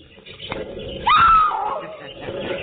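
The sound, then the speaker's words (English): A shrill squeal from caged animals kept behind soundproof steel cabinets. One sharp, high cry jumps up suddenly, holds briefly and then trails downward over a murky, muffled background. “Hear them squeal their greetings to you.”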